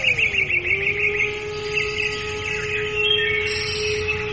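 Sweet song of a golden bird in a fairy tale: quick high chirps trill over a steady held tone at first, then the tone carries on almost alone, with a few faint high notes later.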